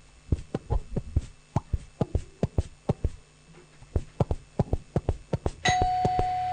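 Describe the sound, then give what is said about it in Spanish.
A doorbell ringing: a long series of sharp, rhythmic pulses, followed near the end by a sustained bright chime tone. “Pero sonó el timbre, boluda, ¿cómo no vamos a ir?”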